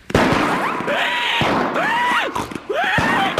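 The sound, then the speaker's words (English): Fireworks burst at a fair: several loud cracking explosions over a continuous rumbling roar, with whistling streaks that sweep up and arc back down between the bangs. “What's that? It's the fireworks. They are an important part of the fair.”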